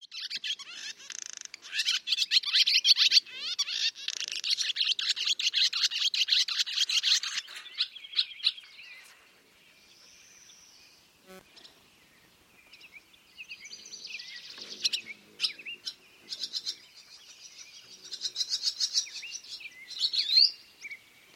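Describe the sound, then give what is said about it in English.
Northern harrier calling: a long run of rapid, high, chattering notes, loud at first, easing into a quieter lull midway, then returning in scattered bursts toward the end. “Northern harrier.”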